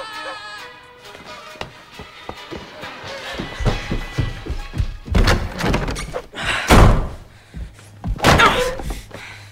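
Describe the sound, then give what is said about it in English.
Someone angrily kicks a cupboard, producing a run of heavy, irregular thuds and knocks that grow louder and denser in the second half, with one slam-like blow near the end. “Angrily kicking the cupboard, he sits on his bed.”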